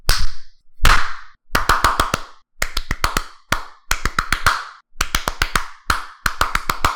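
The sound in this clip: Hands tap out the rhythm of a well-known electronic dance track: sharp, loud claps and slaps in quick repeated bursts of several hits, separated by short pauses.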